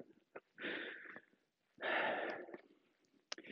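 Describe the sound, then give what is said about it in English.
Heavy, ragged breathing of someone out of breath while walking uphill: two long, rough breaths with short sniffs and snorts between them, faint. “Gotta catch my breath again. There's some hills.”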